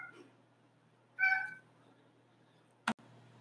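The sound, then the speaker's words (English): A cat gives a single short, quiet meow against a low background hum, and a brief sharp click follows a moment later. “My cat must have heard the angst in my voice and decided to get in on the conversation as well.”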